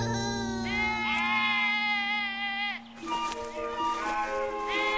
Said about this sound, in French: il garde les moutons, les chèvres, oh, ça lui plaît, il adore ça.